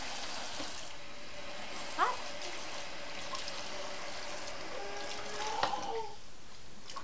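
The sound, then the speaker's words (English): Water running from a tap while a young child's hands are washed: a steady, fairly faint hiss of flowing water that continues evenly throughout, with no speech. “Okay. Ready? I'm gonna wash you off.”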